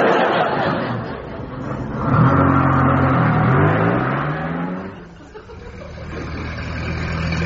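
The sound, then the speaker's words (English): An old car engine runs and revs at a low, rumbling pitch. Its note climbs and wavers through the middle before settling back to a steady idle-like drone. “This vehicle's very sensitive. It likes to be coaxed. Oh, we haven't got time for that. Put your foot down.”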